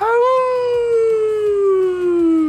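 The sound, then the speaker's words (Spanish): A human voice imitates a wolf howl with one long, loud, sustained tone that slides slowly downward in pitch, heard alone. “¿Cómo es el lobo? El lobo hace...”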